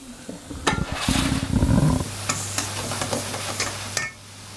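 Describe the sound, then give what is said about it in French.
Apples cooking in melting butter sizzle and crackle in a pan, with loud scraping bursts of stirring near the start before a steadier, softer fizz with a low hum continues. “on va attendre que les pommes cuisent. On entend un petit peu.”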